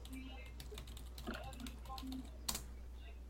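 Faint typing on a computer keyboard into a Hangout chat, with many quick, irregular key clicks and one slightly sharper tap near the end.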